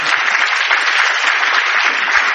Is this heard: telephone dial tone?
no